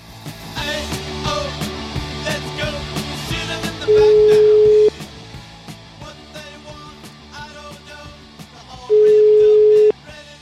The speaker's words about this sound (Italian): Speriamo che risponda al telefono come al solito.